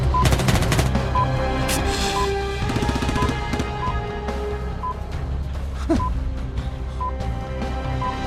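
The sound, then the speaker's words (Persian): Rapid bursts of gunfire crackle in dense volleys, heaviest at the start and again around the middle, over a steady, noisy background. “دارم تیر اندازی میکنم، ول کن بریم.”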